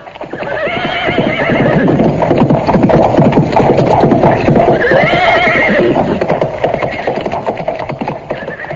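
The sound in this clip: Horses neighing loudly as a chariot is driven, shrill whinnies rising over a steady clatter of hooves that carries through to the end.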